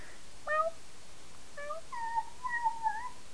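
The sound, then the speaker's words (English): A male pet cat meows a few times: short high tonal calls, then a longer drawn-out meow that wavers in pitch, each standing out clearly over a faint steady hiss. “the kitty cat says meow”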